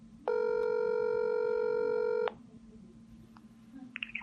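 Ringback tone on an outgoing telephone call: one steady, buzzy tone of about two seconds that stops abruptly, leaving faint line noise with a few soft clicks.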